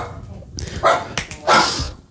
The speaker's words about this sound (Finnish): Miks tuolla on koira? En mä mietin just, että mikä satana koira tuolla.